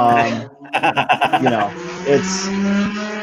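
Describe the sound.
Cars racing loudly outside in a residential neighbourhood, with engines revving in a rapid pulsing rhythm before settling into a sustained droning roar.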